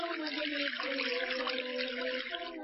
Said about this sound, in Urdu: اب اس کے بعد نل کھول کر دونوں ہاتھوں کو دھوئیے